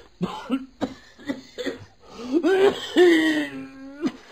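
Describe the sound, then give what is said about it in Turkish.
Coughing by a character in a Turkish radio drama: a few short, harsh coughs, then a longer strained, voiced cough that sounds like throat-clearing, fairly loud and with no talk. “Bak öksürüyorsun.”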